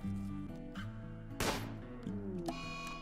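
Gunfire in the video game Rimworld: one loud, sharp burst of shooting cuts through midway, set against a steady tonal background that holds throughout.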